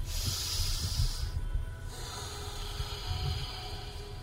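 Deep, airy breaths drawn in and out during a counted breathing exercise in a comedy parody segment: two long breath sounds separated by a short gap, over a low rumble, with no talking.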